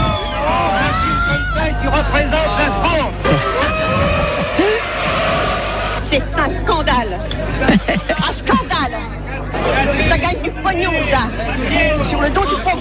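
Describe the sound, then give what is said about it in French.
An agitated audience reacting after a 1973 film screening: a dense, loud babble of many overlapping voices with occasional shouts rising above it, continuing throughout. “Le film fait grand bruit. Réaction nerveuse des spectateurs.”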